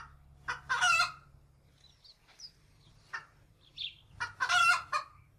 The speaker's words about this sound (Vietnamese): Ngoài kia, gà đã bắt đầu cất những tiếng gáy đầu tiên.